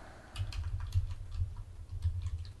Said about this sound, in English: Everybody hear me type.